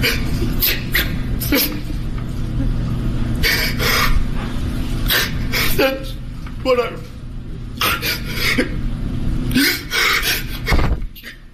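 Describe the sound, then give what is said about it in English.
A man sobbing and breaking down while testifying on the witness stand in court: breathy, ragged gasps and shaky exhalations come in uneven bursts over a constant background hum. “That is Kyle Rittenhouse breaking down on the stand”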